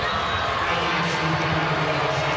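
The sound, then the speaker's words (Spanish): Stadium crowd applauding a football player at a match in Colorado: a steady, dense wash of clapping and crowd noise holding at one level throughout, with no single claps standing out. “Ahí está Sonny y la gente le aplaude.”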